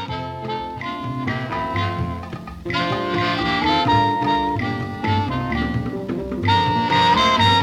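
A West African swing music track plays: a full band with a steady, lively groove and bright melodic lines, loud and continuous throughout with no speech over it.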